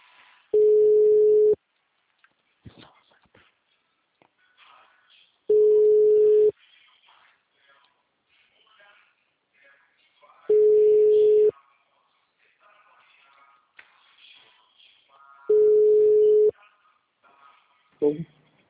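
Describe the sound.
Ringback tone of a telephone ringing on an outgoing call: four steady, even one-second tones spaced about four seconds apart, with a fifth just starting at the end, and faint murmuring noise in the gaps.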